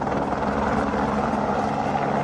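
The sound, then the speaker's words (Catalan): Firefighting helicopters loading water from a municipal pool during a wildfire in Tiana, producing a loud, continuous rotor roar with a low rumbling drone and a fast, steady blade thrum throughout. “Són els helicòpters carregant aigua de la piscina municipal de Tiana i llançant-la sobre les flames sense descans.”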